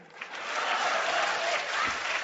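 An audience bursts into applause, with many hands clapping in a dense, even roar that swells quickly and holds steady throughout.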